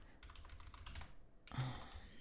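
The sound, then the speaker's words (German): Typing on a computer keyboard: a quick run of soft key clicks, a brief pause, then a louder, denser burst of keystrokes near the end, all faint and with no voices. “Vor allem, weil ich hier aus irgendeinem Grund die falschen Tasten ständig drücke.”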